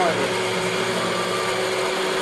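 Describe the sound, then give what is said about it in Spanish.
A blender runs at high speed, mixing ingredients with a sweetener until everything is fully crushed. A loud, steady motor whir and churning rush continue without a break. “Ahora, ¿cuánto es el tiempo que nosotros vamos a tener que batir? Hasta que todo esté completamente triturado.”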